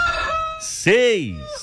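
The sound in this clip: A rooster crowing once, loud and harmonic, its pitch arching up and then down over about half a second, set among other sustained tonal sounds.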